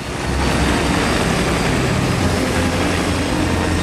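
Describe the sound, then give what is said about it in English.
Helicopter rotor blades and engine spinning as the helicopter lifts off the ground, a loud, steady whirring roar that holds an even level throughout with no voices. “buttons to the on position, and the blades slowly begin to rotate. As more switches are turned and tweaked, the helicopter begins to slowly rise off the ground.”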